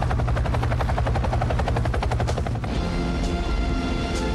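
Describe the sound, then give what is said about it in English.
A transporter aircraft in flight, a loud steady engine drone carrying a rapid rhythmic pulsing that continues throughout. “Gene studies a map as he flies his transporter. He then puts the map down, adjusts the joystick, and the plane veers to port.”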